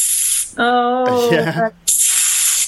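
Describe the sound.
A voice imitates a hissing street catcall heard in the Dominican Republic: a sharp, breathy hiss, then a short voiced call, then another loud hiss.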